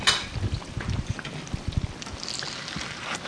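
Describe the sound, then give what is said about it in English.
Food frying golden brown in a pan, a steady crackling sizzle dotted with soft low knocks and pops, with no talking. “Oh, this looks good. See, it's nice and solid. It's turning golden brown and crispy on the outside. I'm going to flip it.”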